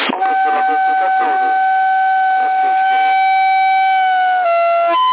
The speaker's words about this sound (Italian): cos'è questa trombetta?